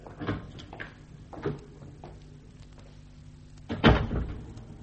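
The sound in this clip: A church door is closed and locked: a few wooden knocks and clunks with a faint low hum in the gaps. The last clunk is the loudest. No voices are heard.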